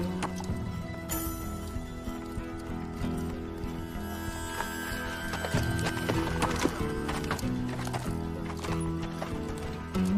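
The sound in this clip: Horses walk on a ride into a ravine, their hooves clip-clopping steadily throughout. Many overlapping hoof strikes sound over a constant low background.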